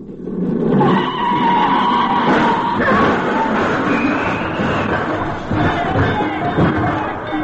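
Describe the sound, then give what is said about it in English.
Tires skid as a car drives across Sunset Boulevard: a long, loud, continuous rush of screeching and rumbling noise with voices mixed in throughout. “She's on the other side of Sunset Boulevard. I'll drive over and pick her up.”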